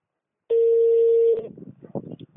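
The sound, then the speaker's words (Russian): A telephone call being placed during a debt-collection call: one steady, mid-pitched line tone holds for just under a second, then gives way to muffled, voice-like sounds on the line. “Сейчас я вам позвоню. Сейчас я вам перезвоню, будьте готовы.”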